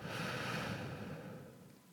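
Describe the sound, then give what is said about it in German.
Breathing in and out during a guided breathing exercise: a soft, airy breath sound, steady at first and then slowly fading. “Einatmen und ausatmen.”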